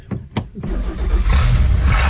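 An old lobster boat engine being started up in the morning: a few choppy starter cranks, then the engine catches and settles into a steady, loud low rumble with rising hiss.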